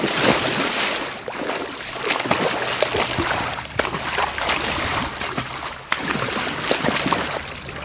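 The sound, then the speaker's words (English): Water splashing and sloshing as a triathlete swims in open water during a triathlon, with a steady churning wash broken by sharper splashes at an uneven rhythm. No voices are heard. “And we're away, swimming.”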